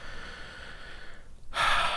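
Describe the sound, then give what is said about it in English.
A deep breath in during a guided side-of-hand tapping exercise: a low steady hiss, then a sudden loud, breathy inhale near the end. “take a nice big deep breath for me”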